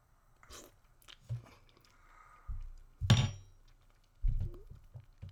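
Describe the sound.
Someone bites into food and chews it, producing several crunchy, irregular bursts separated by short quiet gaps. One sharp, louder crunch stands out near the middle.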